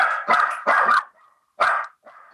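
A dog barks in several sharp, loud bursts, two close together and then one after a short pause. Faint, thin whine-like tails trail off after the barks.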